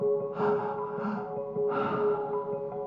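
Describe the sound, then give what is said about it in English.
Deep, full, connected breaths taken during a guided breathing exercise: a few breathy, airy rushes of inhaling and exhaling in a slow rhythm, moderately loud, with no talking. “Give yourself the gift of these deep, full, connected breaths.”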